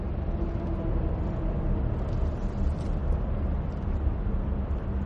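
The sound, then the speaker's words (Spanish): A car driving through a tunnel gives a steady, broad rumble with a low droning hum, holding an even level from start to finish with no voices. “El coche de Christian circula por un túnel.”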